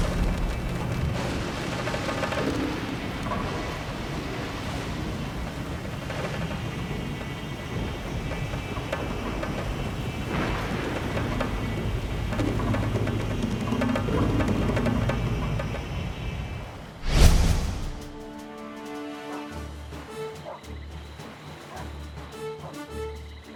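A storm at sea tosses a ship in a dense, continuous roar of wind and water, broken near the end by one sudden loud thunderlike boom before the noise drops away.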